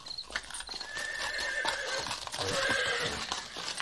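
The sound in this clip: A horse neighs with drawn-out whinnies while its hooves clip-clop in a steady rhythm of sharp knocks, the whole scene fairly faint and with no talk.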